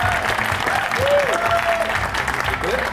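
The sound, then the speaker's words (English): Studio audience applause and cheering for Philip Hammond, former Chancellor, as he joins a talk show: a dense, loud, steady wash of clapping with shouts mixed in throughout. “Please raise the roof for Philip Hammond!”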